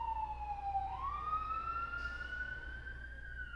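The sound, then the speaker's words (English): An emergency vehicle siren wails on a downtown Memphis street, faint and alone. Its pitch dips, then climbs and holds in a long, steady wail. “Sorry about the sirens. Again, I'm in downtown Memphis. We can give that a minute.”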